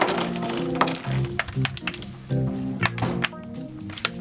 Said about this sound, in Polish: Otwieramy laptopa. Odkręciliśmy śrubki, teraz wyciągamy z zatrzasków obudowy. Dziwne dźwięki dla klienta, często nieprzyjemne